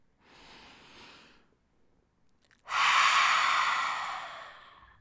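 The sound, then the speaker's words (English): A deep breath: a faint inhale comes first, then a long, loud exhale through the open mouth that gradually fades. “Take a deep inhalation, open your mouth, and exhale.”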